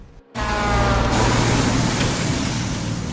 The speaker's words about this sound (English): He halts his 4x4 at a junction as a big truck takes the right of way.